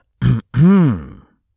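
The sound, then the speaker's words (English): A throat clearing in two parts, a short rough burst followed by a longer voiced 'ahem' whose pitch rises and then falls, heard alone against silence. “Clear throat significantly.”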